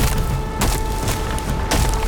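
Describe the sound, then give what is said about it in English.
A foot stomps hard and the earth gives way: two heavy, splintering crunches stand out above a loud, continuous rumbling bed, with a faint steady hum underneath. “He lifted a foot and stomped as hard as he could.”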